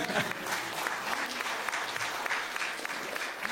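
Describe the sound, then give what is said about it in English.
Audience clapping after the mention of a couple's 40th wedding anniversary, a moderately soft but steady patter of many hands that continues without letup for several seconds. “yeah, you're clapping for Lynn, aren't you?”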